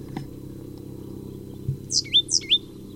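Bird song in Blomquist pasture: four quick, high chirps in two close pairs near the end, each sweeping sharply in pitch, over a faint low rumble that fills the quieter opening.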